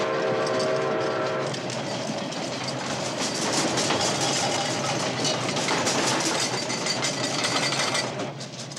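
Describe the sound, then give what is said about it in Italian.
An approaching train opens with a sustained horn blast that stops after about a second and a half. Loud, continuous rumbling and rattling of wheels and cars follow and last to the end. “È il treno e viene verso questa stanza.”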